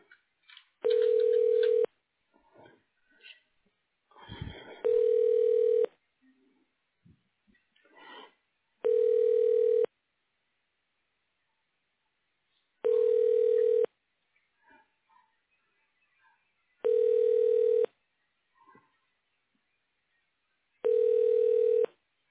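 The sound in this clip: Telephone ringback tone on a line while a call is transferred to a voicemail extension: six steady, even rings, each about a second long and spaced roughly four seconds apart, with faint scattered noises in the gaps.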